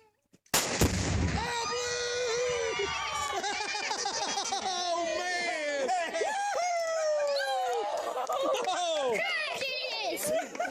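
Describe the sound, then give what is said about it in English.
A single loud high-powered rifle shot explodes a small box of pink or blue chalk at a gender-reveal party. Excited shouting and cheering follow at once and continue to the end. “Couples pack a little box of explosive pink or blue chalk and then shoot it with a high-powered rifle. Let's hear a clip from YouTube.”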